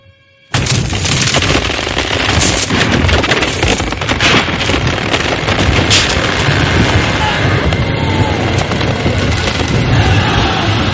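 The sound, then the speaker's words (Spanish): English cannons fire on the deck of the ship Acheron in a naval battle, a dense barrage of heavy booms and cracking shots with wind noise. It stays loud throughout after a brief quiet opening. “cañones ingleses han barrido la cubierta de la Acheron. Su palo mayor, el que ha sido más castigado por la batería inglesa, se desarbola hasta caer al mar.”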